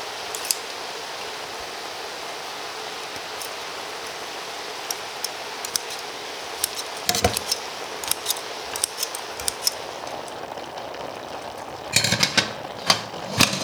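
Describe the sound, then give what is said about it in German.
Poultry shears snipping peeled canned tomatoes in a pot: sparse, sharp clicks at first, then quick clusters of snips, the last burst the busiest, over a low steady background. “Dafür habe ich so eine Geflügelschere und jetzt habe ich die erste Dose da reingeschüttet in den Topf und schneide einfach die geschälten Tomaten in Scheiben.”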